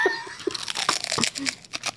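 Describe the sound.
Crunching on fried, bubbled pork skin chicharrón coated in smoky paprika seasoning. A few crisp, dry crackles and crinkles come in uneven bursts over about two seconds.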